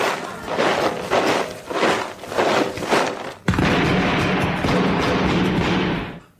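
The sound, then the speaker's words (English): Gunfire from rebels hidden behind trees, shooting soldiers in bright red uniforms in a comedy sketch: several rough bursts of shots, then a dense, sustained roar of firing that cuts off at the end. “They've all been shot dead from behind those trees, sir.”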